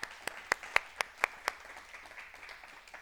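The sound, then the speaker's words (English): An audience applauds to welcome a speaker, with seven crisp, evenly spaced claps standing out before the clapping softens into a faint patter. “But she agreed to do that today, so I'm going to welcome her up. Let's give her a hand.”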